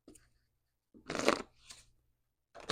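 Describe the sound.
A deck of cards is shuffled during a card reading, in a few brisk, papery riffling bursts separated by short pauses, fairly faint over a low steady hum.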